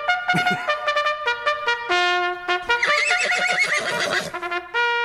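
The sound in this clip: A horse whinny sound effect rings out as one long, loud neigh with strongly wavering, bright harmonics. It breaks into shaky, fluttering pulses before it trails off.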